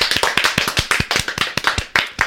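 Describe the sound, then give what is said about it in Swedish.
A small group applauds, with many quick, sharp, slightly irregular claps running steadily for about two seconds and no talk over them. “är det läge för Flashback Forevers första applåd någonsin?”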